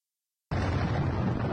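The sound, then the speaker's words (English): An ammunition depot in Ukraine blows up: after half a second of silence a sudden loud blast breaks in and turns into a sustained, dense roar that holds steady to the end. “Yeah, a ammo depot in Ukraine being blown up. I can show the video maybe.”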